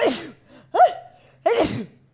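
A sneeze comes as a few sharp, loud bursts of breath, separated by short pauses, against an otherwise quiet background.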